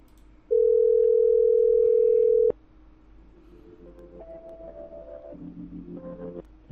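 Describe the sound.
Steady telephone dial tone after a call is hung up: one unbroken mid-pitched tone lasting about two seconds that ends with a sharp click, followed by faint low tonal humming.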